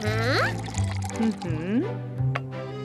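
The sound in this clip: Milk pours from a container during cooking, a soft liquid stream running under voices that talk over it.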